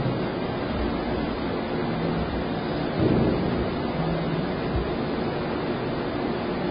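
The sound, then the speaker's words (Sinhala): Wind blows in a steady, even rushing hiss with a low rumble underneath, swelling slightly for a moment before settling back to the same constant wash. “ඒ ආර්ය භූමිය දෙසින් හමායන සුළඟ”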